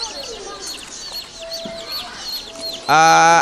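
Chickens offered for sale make rapid high-pitched chirps throughout over a low hiss, then a loud, sustained, harmonic squawk bursts in near the end.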